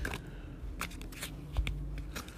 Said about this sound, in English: tarot deck, give us a card for this week coming up